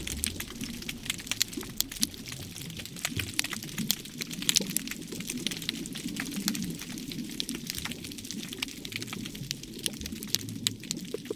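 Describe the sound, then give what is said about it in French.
Dense underwater crackle of sea urchins at Djengen: countless sharp clicks and snaps pile into a steady fizzing texture over a low watery rumble, holding an even loudness throughout with no voices. “Les sons que tu entends là, c'est ceux des oursins. Ce sont les oursins qui crient comme ça”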